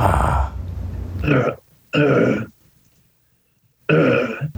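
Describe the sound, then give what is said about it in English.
Open-mouthed throat clearing done as a voice exercise, three rough, raspy bursts of gravelly noise separated by short pauses. The first burst is long, the later two are briefer, and no speech is heard. “Try and get that throat clear with the mouth open.”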